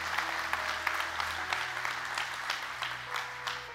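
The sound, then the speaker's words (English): Congregation applause at a Sunday church service, dense, steady clapping from many hands that keeps an even level for the whole stretch, with no voices over it. “Can we give him a good hand clap today?”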